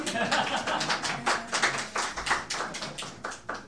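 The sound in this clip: Scattered applause from a small audience as a presenter is called up at a local history reading, with many uneven claps forming a light, irregular patter that rises and falls in loudness.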